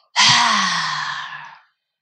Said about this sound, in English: I want you to practice that exact breath we just did. And I want you to really allow yourselves to go that big. It's called a lion's breath.